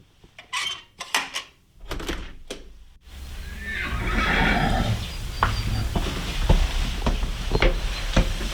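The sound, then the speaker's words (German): Hungry horses in a stable whinny and snort on an early misty morning: a few loud, sharp bursts come first, then a steady background with scattered clicks and shuffling. “Gierig schreckt die Rössli vor Dorothee Schneider ihre Nüstern aus den Stallfenstern, zum signalisieren, hey,”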